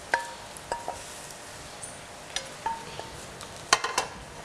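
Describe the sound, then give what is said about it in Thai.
A utensil faintly clinks and scrapes as blanched pork is mixed with spicy salad dressing in a bowl. Soft, irregular taps and a few sharper chinks sit over a low hiss, with no talking. “เราก็เอาส่วนผสมนี่นะคะที่มีเนื้อสัตว์นะคะก็คือหมูลวนเราเนี่ยนะคะใส่ในอ่างให้คลุกกับน้ำยำให้เข้ากันก่อนนะคะ”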